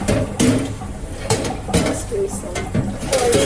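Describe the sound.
Metallic clanks and scrapes of an oven tray being handled, a few sharp knocks and rattles scattered among softer shuffling.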